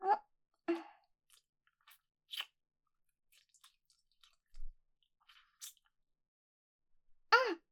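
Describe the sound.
Someone bites into and chews ice cream, making short crisp crunches and soft squishy chewing sounds. The bursts are quiet and spaced apart by pauses, with a few louder bites among fainter ones.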